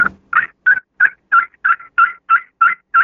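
Soft, evenly spaced turkey yelps from a Scarlet Fever crystal friction call, a run of about ten clear, moderately loud notes in a steady rhythm with no talking.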